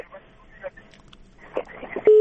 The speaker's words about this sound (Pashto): خیر، ټلیفون قطع شو.